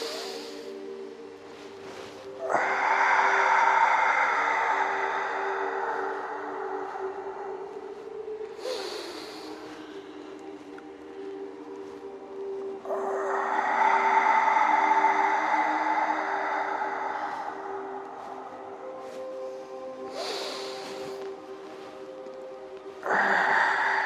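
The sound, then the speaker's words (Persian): A group takes deep breaths together during a breathing exercise: two long, slow, hissing breaths of several seconds each, each closing with a brief sharp rush of air, over a steady low tonal drone, with another sharp burst at the very end. “چند تا نفس عمیق میکشیم، گرچه همه اینا تکنیک داره ولی میخوام شروع بکنیم. ابتدا نفس کشیدن شروع میکنیم همه با هم.”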